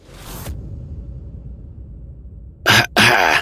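A man coughing as he abruptly sits up: two sharp, loud coughs in quick succession near the end, following a stretch of quiet low background noise.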